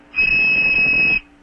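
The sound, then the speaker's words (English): A toy whistle with one of its holes covered sounds a single pure, shrill tone, held steady and loud for about a second before stopping abruptly. “And then if you glue or cover or glue one of the holes, then you get a 2600 like this.”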